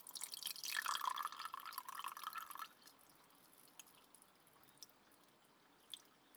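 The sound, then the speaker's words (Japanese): Hot water is poured while making black tea, a soft, steady splashing stream for a few seconds, then quiet with a few faint, scattered drips. “ここにも湯を注いで、”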